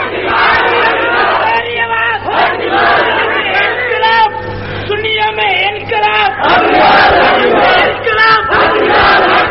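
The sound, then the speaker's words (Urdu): A large crowd chants a slogan in unison, raised voices shouting together loudly and continuously for nearly ten seconds with no pause. “ہن میں لاواں یا نہ لاواں، اے نعرہ لگ دے تے تا قیامت لگنے”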